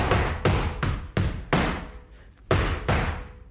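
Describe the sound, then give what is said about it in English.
A drum call (llamada) follows a closing phrase (cierre): seven heavy, resonant strikes, each ringing down. A group of five comes first, then a short pause and two more. “I've just done a cierre. I've closed my build-up. Now they know I'm going to do a llamada.”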